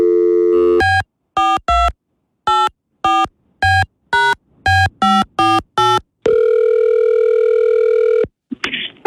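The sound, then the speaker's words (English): An outgoing phone call to a shop: a quick string of short, evenly spaced electronic beeps, then one long steady tone, ending in a brief different burst of sound. “when I call Fruits and Roots in downtown Roanoke, I'm going to say I love you.”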